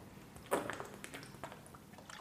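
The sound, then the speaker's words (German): Someone pours and sips a drink of water. It is faint: one short wet splash, then a few soft drips and small wet clicks. “Ich muss mal einen Schluck Wasser nehmen.”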